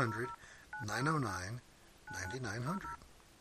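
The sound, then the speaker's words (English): Telephone keypad dialing tones as a toll-free number is punched in: a few short, flat electronic beeps mixed in with someone talking over them. “did we not try to see what comes up if we call that number? Let me try right now.”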